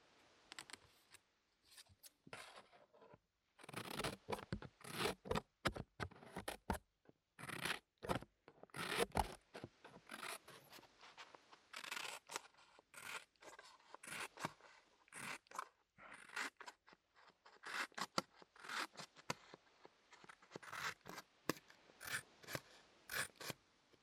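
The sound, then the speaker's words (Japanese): Scissors cutting thin paper: many quick, crisp snips and rasping cuts in an irregular rhythm, fairly loud and heard alone. “紙を切る音だよ。”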